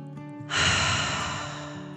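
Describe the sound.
One slow, deep breath taken during a guided relaxation for children: a long airy rush that starts suddenly, then gradually fades over a soft, steady background tone.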